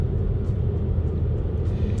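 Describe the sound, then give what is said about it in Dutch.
Low engine and road rumble inside a car driving to Naaldwijk, a constant dull drone that stays even throughout with no talking. “Ik rij nu naar Naaldwijk.”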